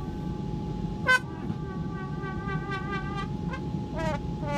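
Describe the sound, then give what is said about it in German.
Short horn-like toots come from a lightweight device that honks with every change of direction. One loud blast sounds early, then several fainter, quick toots follow, all over a steady tone and a low background rumble. “Das Einzige, was jetzt noch nicht so befriedigend ist, ist das Geräusch. Man hupt eben zwangsläufig bei jedem Richtungswechsel”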